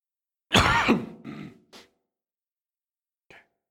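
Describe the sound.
Throat clearing during a sermon: a loud, rasping burst followed by a couple of shorter, softer rasps, then, after a pause, one faint brief sound.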